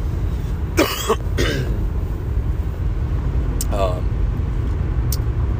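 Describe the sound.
Coughing inside a moving van: two harsh, raspy bursts early on, over a steady low road rumble and engine drone that runs throughout.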